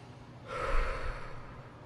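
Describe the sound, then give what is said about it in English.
A deep inhale during a breathing exercise: one long, steady, airy breath drawn in for over a second, moderately loud and alone. “You're going to breathe in for 5 seconds. Okay. You're going to hold it for 2, and you're going to exhale for 7.”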